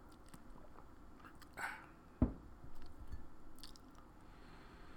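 A quiet sip of Carnation Turtles flavored hot chocolate, with a few brief, faint mouth sounds and one sharp click over a low hush.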